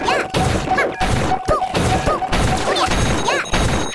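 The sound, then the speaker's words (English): A box is hit and smashed in a video game, with many sharp thwacking and crashing impacts over dense, continuous game effects and chirping tones. It is loud throughout, with no talk. “I jumped up one, and I'm gonna hit this box.”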